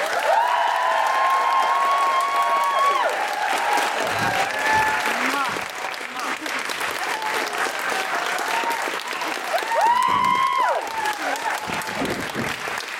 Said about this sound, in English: Please put your hands together and make exciting hooray noises for Sadia Azmat.